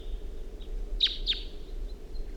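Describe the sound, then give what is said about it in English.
Faint song from a wild bird in the distance, drawn in by decoy calls: two brief high chirps stand out over a steady low rumble and a thin, sustained high whistle. “The calls of the decoys have aroused the attention of another wild bird who's coming in.”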